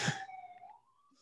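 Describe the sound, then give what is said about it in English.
A siren going by sounds as a faint, brief wail: one sustained tone that sags slightly and then edges upward before fading out. “Oop, there's a siren going by.”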